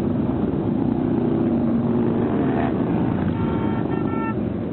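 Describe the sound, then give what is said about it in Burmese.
A dense, continuous low rumble from many motorcycles riding through Washington DC in a huge rally of riders. It stays loud and unbroken throughout, with a brief horn-like toot near the end. “ဆိုင်ကယ်စီးတဲ့သူပေါင်းသိန်းနဲ့ချီဟာ Washington DC တစ်မြို့လုံးကိုလှည့်လည်ပြီးတော့မောင်းနှင်နေတာကြောင့်မိုးချိမ့်တယ်လို့မျိုးကြားနေရတာပါ။”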